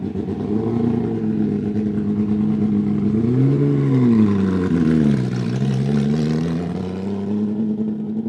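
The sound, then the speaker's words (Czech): A Porsche 997 GT3 race car engine revs hard with a loud, steady, mid-pitched roar. Its pitch climbs and dips through several revs in the middle before settling back into a sustained drone. “na závěr nešetřil a pořádně odhrábnul své Porsche 997 GT3”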